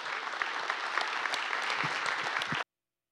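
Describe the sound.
An audience at a church service claps in welcome for a visiting pastor, a dense, steady burst of applause that holds evenly for about two and a half seconds, then stops abruptly.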